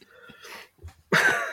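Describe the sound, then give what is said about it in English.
A person coughs: a few soft, throaty sounds, then one loud, harsh, rough cough burst that carries to the end. “Paul's just watching me cough up my guts on the webcam”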